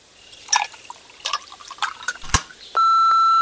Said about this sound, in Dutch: Ja, en we hebben hier ook een antwoordapparaat staan.